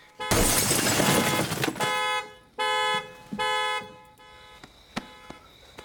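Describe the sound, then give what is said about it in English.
Glass shattering as a car window is smashed with an elbow, a loud crashing burst of breaking glass, followed by a car alarm honking in several short, blaring tonal bursts and a few faint clicks. “The killer breaks into the car with his elbow.”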